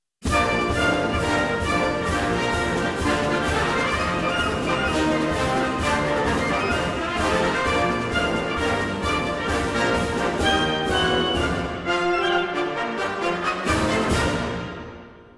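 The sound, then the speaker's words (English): An upbeat orchestral march plays, the bright march theme from a baseball-themed theater piece. It is full and loud throughout, with brass and percussion driving a steady beat, then thins and cuts off near the end. “When things are going well for the team, the march sounds like this.”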